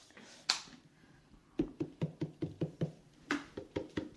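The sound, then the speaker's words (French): A fist bangs on a table: one isolated knock, then a quick run of many dull, evenly spaced thumps, fairly faint and with no talking. “On tape sur la table avec le poing.”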